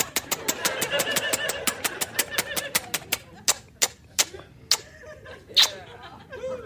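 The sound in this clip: A prize wheel spins in a sound effect: rapid, sharp ticks that gradually slow and spread apart until only a few widely spaced clicks remain.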